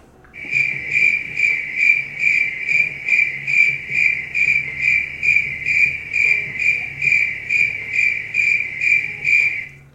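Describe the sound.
Crickets chirp loudly in a steady, high-pitched pulsing trill, with many evenly spaced bursts repeating without pause and no voices.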